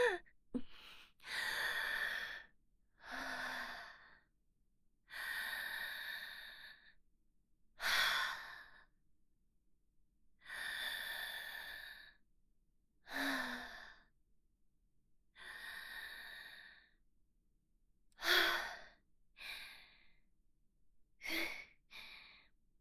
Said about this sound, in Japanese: ちょっと待て。一旦深呼吸を。